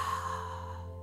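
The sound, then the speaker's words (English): A soft, airy exhale is released after a held breath during a guided breathing meditation. The faint sigh fades gradually over a steady low drone. “holding in that air, and then releasing through the breath.”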